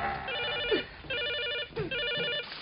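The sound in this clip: A telephone rings inside a caravan, its electronic warbling trill repeating in three steady bursts separated by brief gaps, moderately loud and with no voices.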